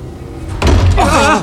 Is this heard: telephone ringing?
no